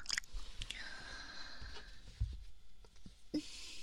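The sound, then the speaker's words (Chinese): A whole candy eaten in one mouthful, with very faint, close chewing and sucking sounds, soft wet clicks and a few small crunches, and some breathy whispering mixed in. “你整个把这个糖都塞进嘴里，然后慢慢的融化它，好幸福呀！”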